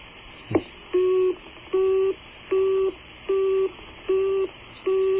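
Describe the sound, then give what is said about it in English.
A telephone signal on an international call to Tanzania: a sharp click, then six short, steady mid-pitched tone bursts in an even on-off rhythm, each lasting under half a second, over a faint hiss of line noise. “There's a line to Tanzania, I believe. We're soon going to hear a Tanzanian ring.”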